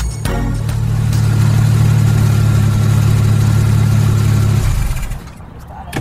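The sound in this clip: A car engine runs while driving, a loud, steady low drone with a constant hum that holds for about five seconds and then drops away sharply near the end.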